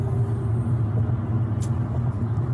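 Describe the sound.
An 18-wheeler tire rolling down a highway in a video makes a loud, steady low rumble throughout, with a brief faint high hiss midway.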